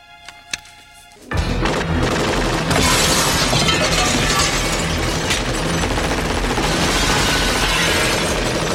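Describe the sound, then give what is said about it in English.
Glass shatters after being shot. A sudden loud burst of breaking glass follows a quiet start, then keeps crackling and showering densely until the end. “Shoot the glass.”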